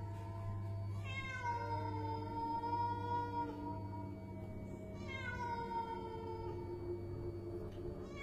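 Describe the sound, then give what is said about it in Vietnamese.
A cat meows in two long, drawn-out wailing cries, each with a clear harmonic tone that bends up and then falls, over a steady low hum. “Con bé Hồng phải nạt mãi, đuổi mãi, mà dường như con mèo kia không biết sợ người. Ánh mắt của nó xanh lè lè, cứ nhìn chăm chăm vào con bé Hồng mà kêu lên.”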